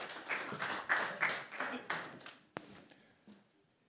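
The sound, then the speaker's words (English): Applause and clapping from a church audience welcoming a guest preacher at a morning service. It rings out steadily for about two and a half seconds, ends on one sharp clap, then fades to quiet. “He's going to preach for us this morning, so give him a hand.”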